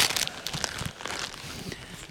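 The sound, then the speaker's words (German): Paper wrapping of a face mask crinkling, a faint, irregular patter of dry crackles and rustles that runs throughout. “Was knittert denn hier? Von der Maske, das Papier.”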